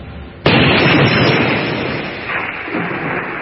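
A single gunshot fired on command during hitman training in Medellín: one sharp, loud blast followed by a long, broad rumbling tail that slowly fades.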